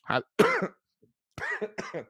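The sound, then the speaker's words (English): Short coughs in two quick pairs separated by a brief pause, each burst rough and fairly loud, with no talking. “I almost made it without coughing. Dang it.”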